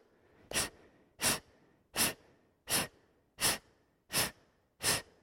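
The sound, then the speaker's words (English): A person breathing in with the belly relaxed: seven short, airy breaths at an even, steady pace, each a soft rushing puff separated by quiet gaps. “try to drop it and just let the belly relax. The body will inhale automatically.”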